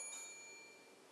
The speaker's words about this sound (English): Ring a bell.